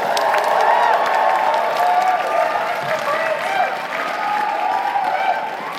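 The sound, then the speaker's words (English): An audience applauds both teams at the close of a competition: sustained, dense clapping with a few scattered cheers, holding loud and even before easing slightly toward the end. “All right, let's give a big round of applause to both teams.”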